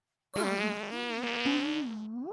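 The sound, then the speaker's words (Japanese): A long, buzzy fart of about two seconds, loud and tonal with a wavering pitch that rises sharply at the very end, heard alone. “臭いおなら嗅がないで。 臭いおなら嗅いじゃダメ。 ダメよ、おなら臭いの嗅いじゃ。”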